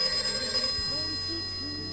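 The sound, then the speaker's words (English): A telephone rings in a domestic kitchen, a warbling electronic ring that repeats in short tonal bursts over a steady humming background, fairly faint overall. “There's quite a lot of phone ringing at the top of this.”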